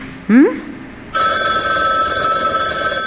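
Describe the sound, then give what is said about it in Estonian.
A mobile phone rings with an incoming call, its steady electronic tone starting after a short rising sound and continuing loudly to the end. “Vabandust, mul poeg helistab.”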